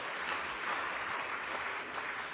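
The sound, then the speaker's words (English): A church audience claps together in a faint, even patter of many hands that holds steady from start to finish, with no voices over it. “Let's give God a clap offering.”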